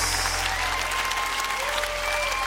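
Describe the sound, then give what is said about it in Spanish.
Congregation applause fills a Christian worship gathering, a steady dense clapping that holds at an even level for the whole stretch with no pauses. “Oh, dale al Señor un aplauso como Él merece.”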